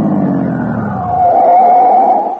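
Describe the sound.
Car tires screech as the driver takes a sharp turn on Fountain Street in Dodgeville, Wisconsin: a low engine rumble gives way to a loud, sustained, high-pitched squeal that wavers slightly.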